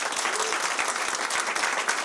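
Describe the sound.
Audience applause at a live comedy taping, many hands clapping in a steady, moderately loud wash that continues evenly for about two seconds.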